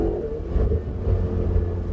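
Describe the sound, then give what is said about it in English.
A race car engine rumbles as a driver gives it gas on a track while being coached. The low, throaty drone stays fairly steady and loud throughout, with no talk. “Go ahead and give it some gas.”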